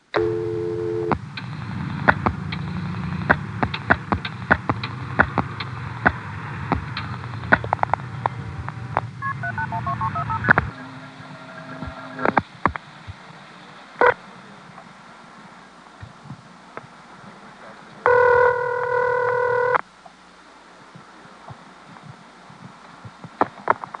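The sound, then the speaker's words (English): Crackling 1973 telephone line to a non-working number through a Springfield Crossbar 5 exchange: many sharp switching clicks over a rumbling hiss, then a quieter stretch with scattered clicks and a short burst of steady multi-pitched tone near the end. “Here's a 1973 call to a non-working number in the Springfield Crossbar 5. I have to include this because it features the classic Washington, D.C. intercept.”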